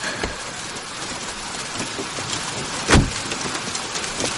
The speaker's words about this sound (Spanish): Llueve copiosamente.